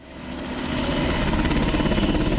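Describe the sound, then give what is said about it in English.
Alaska National Guard military helicopter leaving Bethel, Alaska: engine noise swells over the first second, then settles into a loud, steady drone with rhythmic rotor pulsing. “An Alaska National Guard helicopter is leaving Bethel to transport military personnel and government officials to the new village site.”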